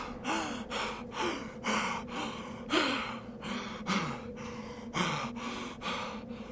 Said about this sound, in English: collapses to the ground and catches her breath. Her throat burns and her heart feels as if it were about to burst.